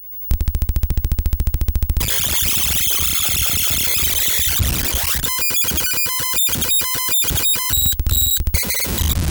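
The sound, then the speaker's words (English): High-pitched, screechy computer tape loading noise from a Novaload loader: a fast run of regular pulses, then harsh continuous static, then loading music of short bright electronic beeps sounding over the noise. “Here is an example of the initial Novaload random sound and then the music on loading.”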